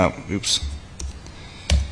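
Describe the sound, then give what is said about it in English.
Computer keyboard keys click as a command is typed into a firmware diagnostic shell, giving a few scattered, sharp taps alongside faint voice sounds. “If you type, you go into the shell and type in prod show,”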